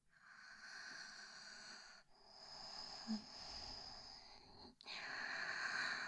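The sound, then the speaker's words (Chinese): Slow, close breathing right at the microphone: long, airy breaths that hiss softly and steadily, with brief pauses near two and five seconds and no speech. “主人，你现在只感觉得到我的呼吸”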